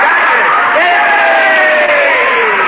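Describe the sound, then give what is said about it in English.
Crowd cheering in the stands at a baseball game: a loud, sustained roar of many voices with drawn-out shouts held throughout. “The stands break into a cheer.”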